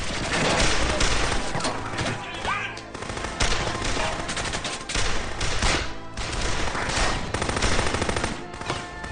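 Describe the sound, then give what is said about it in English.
Rapid gunfire from a gunfight scene, dense overlapping bursts of shots that continue without a break, loud and layered with other busy sound throughout. “Great gunfight.”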